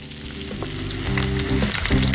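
Loud, steady sizzling of tofu skin stir-frying in a hot wok, with scraping pushes of a ladle as the food is tossed and soy sauce goes in. The frying grows fuller partway through and stays dense to the end.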